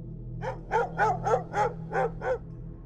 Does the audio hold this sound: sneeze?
no

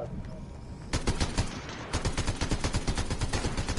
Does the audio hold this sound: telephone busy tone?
no

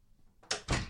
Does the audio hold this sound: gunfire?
no

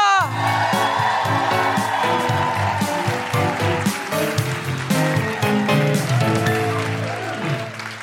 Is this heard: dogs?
no

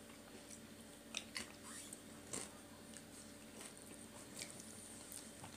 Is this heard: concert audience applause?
no

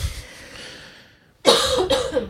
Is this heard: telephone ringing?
no

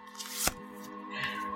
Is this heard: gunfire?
no

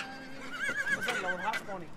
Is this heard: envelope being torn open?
no

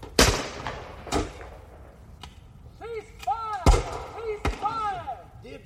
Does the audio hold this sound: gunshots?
yes

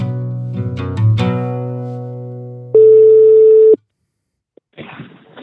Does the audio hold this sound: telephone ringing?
yes

